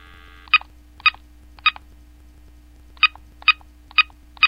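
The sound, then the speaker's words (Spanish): Telephone keypad tones sound as a number is dialed to call a doctor: seven short, clear beeps, three evenly spaced, then a pause, then four more in a steady rhythm. “Sí, aquí está. Marquemos a la doctora Maritza Arroyo.”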